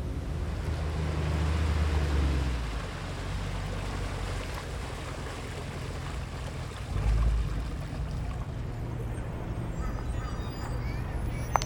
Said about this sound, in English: No, the ferry takes us to Manhattan, remember?